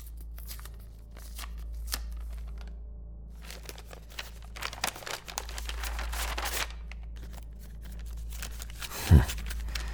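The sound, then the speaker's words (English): A large brown paper envelope being opened, with scattered rustling, crinkling and tearing of paper, a few sharper crackles and one brief thump near the end, all over a low steady hum. “I'd better just see what it is that they left me. It's a large brown envelope. Unmarked.”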